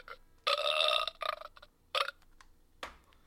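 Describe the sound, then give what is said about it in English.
A burp: one loud, rough belch of about half a second, followed by a few shorter, fainter bursts with quiet gaps between them. “Oh, you're burping? Or did I burp? I can burp on here.”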